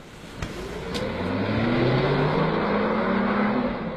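A car pulls away, its engine rising steadily in pitch and loudness as it accelerates, after a couple of sharp clicks at the start.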